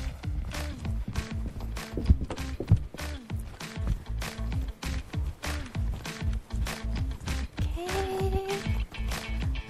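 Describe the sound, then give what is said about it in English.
Running footsteps of a person out for a short run: many quick, steady thudding strides keep up a regular rhythm throughout. “So I will go to the running app here. Here we go. Just tap. 3, 2, 1. Let's go for a little run.”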